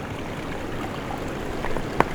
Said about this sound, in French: Ces petits clapotis, doucement. C'est quelque chose qui vous rassure.